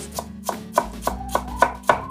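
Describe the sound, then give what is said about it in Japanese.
A knife mincing onion on a cutting board for a bean salad: seven crisp, evenly spaced knocks at a steady, unhurried rhythm, each a sharp tap with a quick decay, with no talking. “今みじん切りにしてますが薄切りでもいいです”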